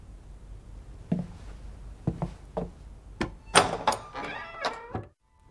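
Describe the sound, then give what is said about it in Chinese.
A door is being shut, giving a series of sharp thuds and knocks of uneven loudness, many in quick succession. A louder cluster of bumps comes near the end, and then the sound cuts to silence. “把门关上。”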